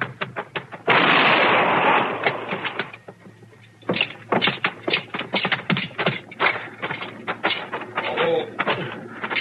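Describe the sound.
A gunshot fired at a man running from arrest in an old Western-style scene: one sudden, loud blast with a long, rough decaying tail, followed by many quick, uneven taps and clatter.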